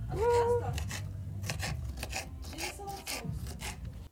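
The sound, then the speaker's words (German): A knife cutting bell peppers for chili con carne, a series of scraping, rasping strokes at an uneven rhythm, with faint background voices. “was machst du? Peperoni schneiden.”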